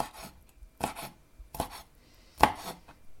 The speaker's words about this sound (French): prétendument des gambas. À mon avis, c'est des grosses crevettes équatoriennes. Je vais les couper en petits morceaux aussi.